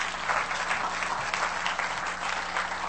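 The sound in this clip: Audience applause at a morning service, a dense and steady wash of clapping that holds at an even level for the whole stretch, with no voices over it.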